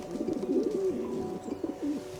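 A male city pigeon coos in low, soft, rolling phrases that rise and settle, repeating a few times, alone and fairly quiet.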